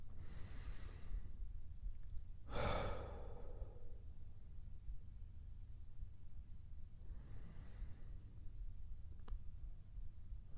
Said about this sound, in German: die Augen zu und dann nehmen wir erstmal zwei tiefe Atemzüge. Mit jeder Ausatmung entspannen wir uns ein wenig mehr.